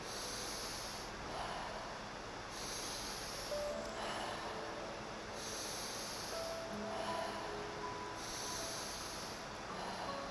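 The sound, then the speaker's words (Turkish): Soft, airy exhales during a guided breathing exercise, breathed out slowly while a palm presses gently on the navel. A few long, faint hissing breaths repeat at a steady, unhurried pace, with no talking. “Göbek deliğimin olduğu yere nefesimi verirken Elimin ayası ile hafifçe basıyorum ve nefes verirken elim basılı kalmaya devam ediyor.”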